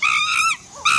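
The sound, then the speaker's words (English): A monkey calls in a jungle with loud, high, wailing harmonic tones. Two strong cries are separated by a brief dip, during which a lower sliding note sounds. “Believe it or not, for some, this is the sound of a dream. A dream about one day hearing this specific monkey in this specific jungle, not through the telly, but for real.”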